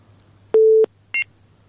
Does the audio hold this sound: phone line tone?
yes